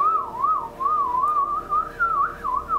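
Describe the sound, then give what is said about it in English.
A person whistles in imitation of a creature's call from the woods: a continuous, wavering warble that rises and falls in pitch throughout, heard alone at moderate loudness. “I'd imagine it's something like this. Shit my pants. I can't even whistle. That was pathetic.”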